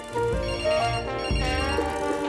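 A telephone rings on a bedroom nightstand, a loud, steady run of bright electronic ringing tones with no voices over it.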